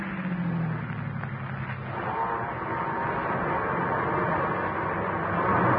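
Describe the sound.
Car engine pulling up a grade as the driver shifts into second gear: a steady, droning rumble whose low tone drops and resettles partway through, then continues strongly.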